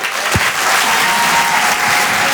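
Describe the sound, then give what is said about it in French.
A French comedy club audience applauds a comedian taking the stage, giving thick, sustained clapping that stays loud and even throughout without any voice. “Faites un maximum de bruit, s'il vous plaît, pour Alexandra Roth.”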